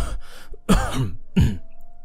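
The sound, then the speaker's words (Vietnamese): Fake coughing from someone covering a phone to pretend to be ill. A voice acts out a few rough, throaty cough bursts, with two loud hacks after a fainter start, and no words spoken. “bịt máy, giả vờ ho khủ khủ.”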